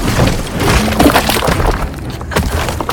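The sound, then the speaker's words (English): A monster smashes a house, breaking walls and furniture. A dense, loud, continuous clatter of impacts and shattering debris runs throughout, with deep rumbling underneath. “The monster punches through a wall and flings a bed into a tree. Smash the furniture! It pummels the house to bits.”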